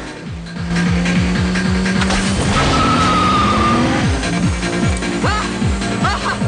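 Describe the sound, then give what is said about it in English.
Racing cars speed away together on a dusty track with loud engine roar and a rising, revving whine, while tires squeal in sustained screeches throughout. “The cars speed away together, raising a trail of dust.”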